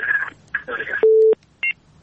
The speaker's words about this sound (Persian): فکر میکنم بازم تماس تلفنی داریم.